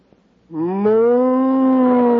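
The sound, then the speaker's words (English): A cow gives one long, loud, sustained moo that starts abruptly and rises slightly in pitch as it holds steady to the end. “moo. Hey, Gertrude's a cow. I'm in love with a cow.”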